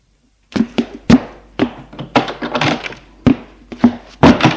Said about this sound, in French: ferme la porte à clé et la met dans sa poche.